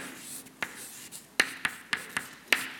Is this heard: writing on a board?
yes